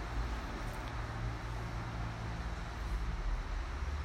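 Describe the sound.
Cars driving past on a road make a faint, continuous rumble of traffic. The sound holds a steady low wash with no distinct pass-bys and no talking.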